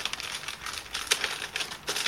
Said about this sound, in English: crackly paper.